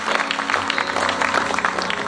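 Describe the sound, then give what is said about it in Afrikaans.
A church audience claps their hands together in a dense, continuous patter of many claps at a lively, fairly even pace. “gee om my hande klap, gee om my dankbaarheid”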